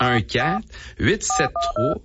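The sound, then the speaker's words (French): Touch-tone beeps sound as a telephone number is dialed on a keypad. A few short, evenly spaced dual-tone beeps follow a stretch of voices talking. “On va l'appeler. On va utiliser le téléphone.”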